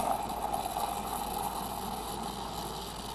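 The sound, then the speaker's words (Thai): An electric milk frother whips milk for a latte-style drink, giving a constant whirring motor hum over a frothy rushing noise that stays even and unbroken throughout. “เดี๋ยวเราจะตีฟองนมก่อนนะครับแล้วก็ทำการใส่ฟองนมด้านบนนะครับ”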